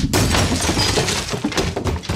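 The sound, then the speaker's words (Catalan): A person tripping over their trousers and falling makes a loud crash, a dense jumble of thuds and knocks that starts abruptly and stays heavy for about two seconds before breaking into scattered bumps. “És que m'he caigut perquè m'he entrebancat amb els pantalons, però bueno, ara ho tinc tot controlat”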